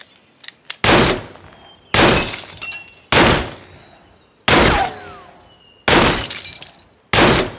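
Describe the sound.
Pistol shots fired at glass bottles ring out, six loud, sharp reports spaced about a second or more apart, each trailing into a long ringing decay with crackling glass breakage, preceded by a few faint clicks and with no talk.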